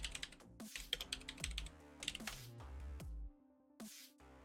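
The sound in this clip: Typing a short phrase on a computer keyboard: quick bursts of crisp key clicks separated by brief pauses, fairly faint, with no voices.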